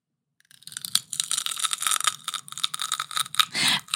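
Crisp, juicy crunching of a celery and peanut butter snack, close and ASMR-style, with many irregular crackling bites and chews that begin after half a second of silence and run continuously to the end.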